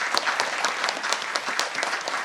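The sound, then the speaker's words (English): A church audience applauds to honor hospitality ministry volunteers, with dense, even clapping that holds at a steady level throughout. “So let's go ahead and give all of them a round of applause.”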